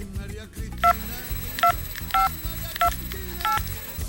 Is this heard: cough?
no